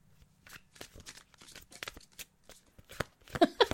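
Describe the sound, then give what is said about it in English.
Tarot cards being shuffled and handled as one is drawn from the deck: a quick run of soft papery riffles and taps, growing busier and slightly louder toward the end. “Well, let's pull a card for our relationship. Card for... I should put the deck.”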